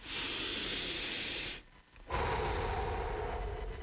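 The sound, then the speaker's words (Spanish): A deep breath as two long, noisy, hissing breaths separated by a short pause, fairly soft, with no talk. “Detenete, respira profundo.”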